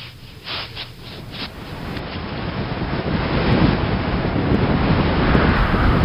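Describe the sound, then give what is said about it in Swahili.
Roaring wind strong enough to split a mountain, a dramatic sound effect: a broad, steady rush of air that swells gradually louder and stays heavy to the end. “Mungu uliye huru, upepo unapasua mlima hiyo kabisa.”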